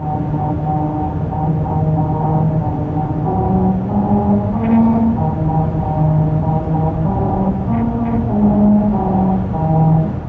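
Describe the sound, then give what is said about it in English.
A car drives over grooves cut into a highway pavement in Lancaster, California, for a Honda promotion. Sustained tonal notes ring out one after another in a steady melody, changing pitch over a constant rumble of tyre and road noise. “That's the sound of a musical stretch of highway in Lancaster, California. As part of a promotion for Honda, special grooves were cut into the pavement that cause these notes to ring out as you drive over them.”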